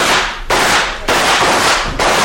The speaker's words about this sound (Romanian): Vom încerca să-i alungăm trăgând asupra lor. Perfect. Veți vedea acum de ce e în stare Marius Salvos. Atențiune, ochiți, prieteni. Atențiune, foc!